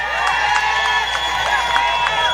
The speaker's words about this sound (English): I turn my attention and invite you to join me in applause for the election of our own Kiz Johnson.